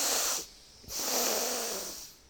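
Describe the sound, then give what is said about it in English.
An audience at a live keynote talk breathes out together in a loud, broad, rushing hiss, then pauses briefly before a second long, sustained exhale that slowly fades. “And the second one, and go, and breathe out.”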